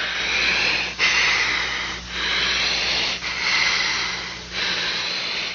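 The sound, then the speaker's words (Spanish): A boy breathes deeply while a doctor tends to him with something placed over his face: slow, airy breaths in a steady rhythm of about five long breath phases separated by brief pauses, with no talk. “Y quiero que respires bien profundo.”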